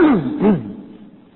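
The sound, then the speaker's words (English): A strained, gasping, choking vocal sound from someone who swallowed saliva the wrong way. It comes in two voiced pulses, the first falling in pitch, then fades away. “I'm not dying, I just swallowed some saliva in the wrong place. I was sucking in my breath with joy of memory while I was trying to talk to you.”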